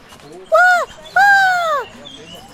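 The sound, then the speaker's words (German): Two loud, drawn-out nasal calls are given as the call of a long-eared owl. The first is short and arched, and the second is longer and slowly falls in pitch, with quiet gaps around them. “Ich hab's, die, die Waldohreule.”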